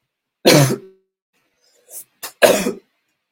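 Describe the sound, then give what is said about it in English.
Coughing from choking on water: a harsh cough, then two short, quieter coughs and a final harsh cough, heard alone with no talk. “But, like that cough's gone. That's just like me choking on like some water.”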